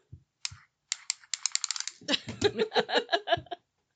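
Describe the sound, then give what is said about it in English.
A tape measure is pulled open: a few separate clicks, then a quick rattling run of clicks, followed by a longer stretch of rougher ratcheting bursts, all fairly soft. “Anne's going to open a tape measure.”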